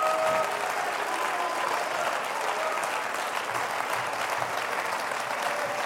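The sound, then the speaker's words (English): A church audience claps during a sermon, a dense and sustained round of applause that holds at an even level for several seconds. “I wish somebody would clap their hands”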